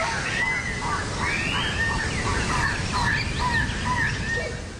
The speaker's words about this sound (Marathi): वाटेत उंच उंच वृक्ष, हिरव्यागार वनराई आणि पक्ष्यांचा मधुर किलबिलाट आपलं मन प्रसन्न करतो.